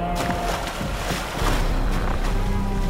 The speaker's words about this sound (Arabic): قفز السندباد وأصدقاؤه السبعة في الماء وفروا بقارب نجاة صغير وبعد مدة من التجديف